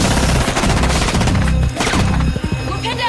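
Heavy gunfire in a crossfire as a vampire is destroyed, a dense, loud, nearly continuous stream of rapid automatic bursts and sharp cracks with no real pause across the whole stretch.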